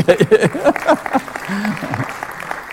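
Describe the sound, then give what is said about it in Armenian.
Congregation clapping during a church service: a patter of hands runs beneath a voice that keeps speaking over it. “Կարող եք ուրիշները կարող են ծափել, եթե սիրում եք։”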